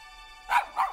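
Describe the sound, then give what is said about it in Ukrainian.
Two sharp barks from a Jack Russell terrier, evenly loud and close together, rising over a steady tonal background. “Я Руді, Джек Рассел Тер'єр, переселенець.”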